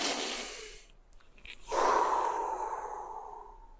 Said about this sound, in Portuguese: vai olhar para aquela cena, vai respirar fundo e vai fazer assim, ó.